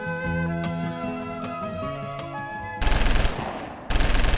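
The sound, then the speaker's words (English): Rapid automatic gunfire from robotic security bears bursts in loudly after a stretch of sustained tonal notes, a dense rattle of shots that breaks off for a moment and then resumes just as hard. “Why are they shooting at us? Well, these old robotic bears washed ashore one day. I was in need of a band, but I also needed some security. So I retrofitted them to do both.”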